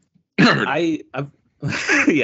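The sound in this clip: A person clears their throat in a few raspy, voiced bursts, loud and alone with no other sounds.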